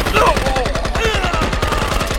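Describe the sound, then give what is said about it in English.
A fusillade of gunfire during an ambush: many rapid, sharp shots crack in a steady, driving rhythm, loud and unbroken from start to end like sustained automatic fire. “Williams and Vale were practically torn apart by the fusillade.”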